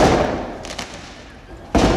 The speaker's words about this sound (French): D'un côté, plusieurs centaines de manifestants, des tirs de mortier, des poubelles incendiées.